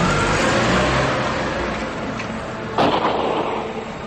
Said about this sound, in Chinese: 安在天加大了油门，车子加速往前开去。